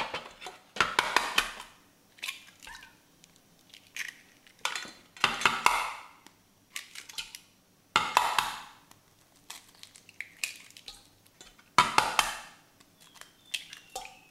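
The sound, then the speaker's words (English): Eggs crack into the bowl of a stand mixer, mixed in with sugar. A few sharp knocks land at spaced intervals, each followed by brief clinks and clatter against the bowl, with quiet gaps in between. “So let's crack the eggs first.”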